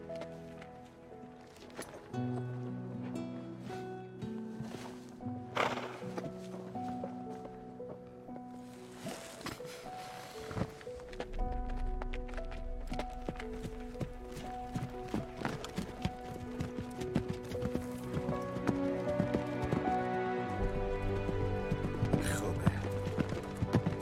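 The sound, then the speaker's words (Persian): Hooves of a horse walking slowly, a steady clip-clop running under continuous music. “حالا دیگه اون اسب توئه.”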